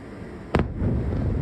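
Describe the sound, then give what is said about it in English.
A sharp blast from a night-time ballistic missile attack on Kyiv cracks out once, then gives way to a sustained low rumble that stays loud to the end. “Kyiv hadn't seen a night like this for weeks. A deadly wave of ballistic missiles that came with little warning and no chance of interception.”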